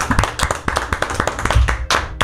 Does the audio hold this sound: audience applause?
yes